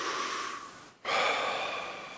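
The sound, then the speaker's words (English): An audience breathes together in unison: a soft, airy rush of breath that drops away briefly near the middle, then surges back and tapers off, with no talking. “If we take a breath together, ready?”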